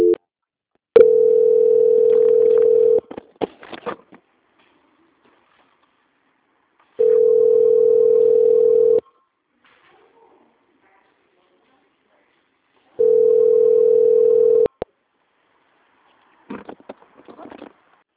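Telephone tone plays while a caller is transferred from a bank's sales line to quality control: three steady, mid-pitched tones of about two seconds each, separated by long silences, with faint faint scuffs between them.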